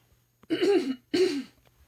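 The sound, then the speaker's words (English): Two strong coughs from a person who is losing their voice, each a harsh, throaty burst of about half a second, separated by a short pause and surrounded by near silence. “I apologize for coughing in your ear”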